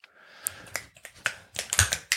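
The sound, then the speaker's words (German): Sharp, dry finger snaps come in an irregular string of many crisp clicks, alone and fairly quiet, growing denser toward the end. “Einmal schnipsen, dann ist es weg.”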